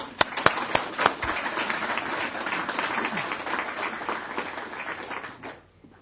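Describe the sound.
Audience applause welcomes a speaker at the 2008 PBPL annual conference at the Open University, opening with a few distinct claps before swelling into dense steady clapping that fades out at the end.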